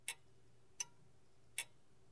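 Three crisp ticks from an old, classic standing pendulum clock that still has to be wound by hand. The ticks are evenly spaced, about three-quarters of a second apart, over a faint steady hum, with no voices.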